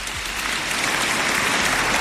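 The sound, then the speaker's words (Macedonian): Applause fills the space as a dense, continuous wash of clapping from many hands. It stays loud and even for about two seconds, with no voices standing out. “Значи, аплауз!”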